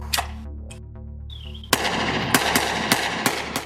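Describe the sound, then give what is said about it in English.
A 9mm handgun fires at an old couch under a bridge. After a steady low hum, several sharp shots follow in quick succession, loud and cracking, with no talk. “Basically, what I'm gonna do is blow up the couch to the best of my 9mm abilities.”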